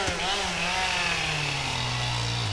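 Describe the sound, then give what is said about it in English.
A big chainsaw cuts through the base of a large, smooth-barked beech tree in a state forest on a sunny October morning, giving a loud, steady, buzzing engine whine that holds throughout. “That's the sound of a big chainsaw slicing through the base of a big, smooth-barked beech tree deep in the 5,000-acre Trail of Tears State Forest.”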